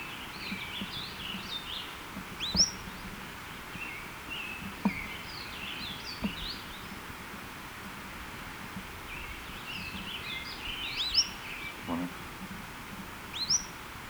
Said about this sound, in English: both notes are by this bird